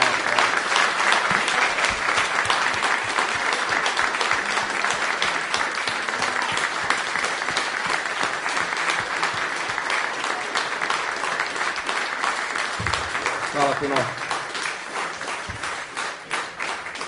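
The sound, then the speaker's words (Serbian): Audience applause after a live poetry evening, dense sustained clapping from a large crowd, loud and steady throughout before tapering slightly near the end, with no speech. “Veliki aplauz.”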